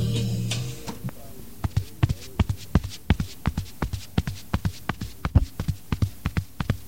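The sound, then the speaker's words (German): Horses' hooves clip-clop while riding across a prairie, a steady, even rhythm of many sharp thuds. A brief low hum comes first, and the hoofbeats then continue alone at moderate loudness. “Schmittitu und Old Mirko Hand reiten gemeinsam über die Prärie.”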